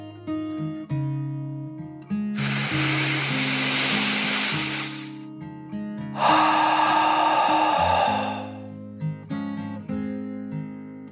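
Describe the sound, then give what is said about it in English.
Slow, deep "dragon breath" from a boy in a calming bedtime story: two long, soft, hissing breaths, in and then out, each lasting a couple of seconds over gentle sustained music notes. “yawned and took another deep dragon breath, in and out.”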